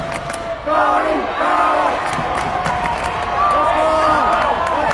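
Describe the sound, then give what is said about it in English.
Arena crowd chanting in Yakima: loud rhythmic group voices repeating the same chant, starting after a brief quieter moment and then staying strong, with cheering mixed in. “You can hear the chant of the Freeman Scotty crowd right behind me here.”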